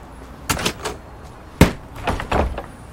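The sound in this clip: A locked door being tried: a few dull knocks and rattles, one sharper jolt in the middle, then softer handle rattling, with no voices.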